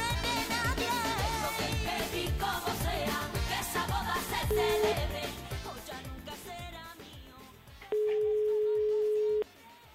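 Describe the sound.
A telephone ringback tone sounds as a call is placed to someone's son. A steady, unbroken tone holds for almost two seconds near the end, after background music fades; a shorter beep appears earlier over the music.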